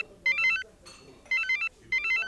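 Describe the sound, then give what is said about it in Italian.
A telephone plays an electronic ringtone in three quick bursts of bright, stepped melodic beeps. The ring is fairly faint, with short gaps between the bursts. “In quel momento il telefono di Tentenna suona.”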